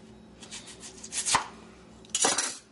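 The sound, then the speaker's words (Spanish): A knife chops a large, peeled onion on a board while preparing Mexican-style zucchini: a few soft taps, then two sharp, louder strikes, with no voices. “Vamos a picar la cebolla.”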